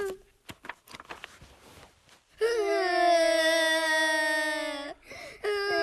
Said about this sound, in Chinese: 你哭什么呀？ 哎呦，你们两个怎么一起哭啊？